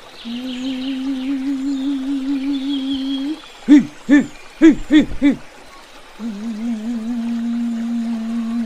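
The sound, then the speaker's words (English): A human voice holds a low, wavering tone, then breaks into a quick burst of about five short, owl-like hoo sounds before returning to the steady held tone. “while I make some sound. Hoo, hoo”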